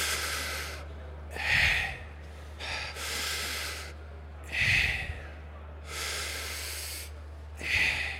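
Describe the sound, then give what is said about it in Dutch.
Deep belly breathing led by a breathing instructor: slow, full inhales and long, airy exhales alternate in about three cycles, the breathy draws sharper and louder against softer, drawn-out releases, over a faint steady low hum. “veel zuurstof naar binnen kan halen. En kooldioxide uitblazen. En ik doe hem even voor, heel simpel.”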